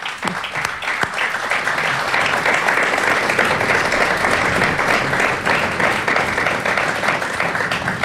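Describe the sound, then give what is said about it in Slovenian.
Applause for an artist whose painting is being presented, dense, even clapping that holds at a strong level throughout with no talk over it. “Čestitke, draga umetnica, in aplauz za to.”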